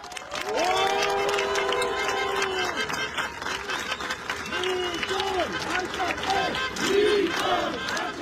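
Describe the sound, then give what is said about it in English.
Supporters cheer the Armenian Prime Minister at his campaign offices: a loud crowd of shouting, whooping voices with some clapping, sustained and surging throughout. “The Prime Minister was cheered by his supporters as he arrived at his campaign offices shortly before declaring victory.”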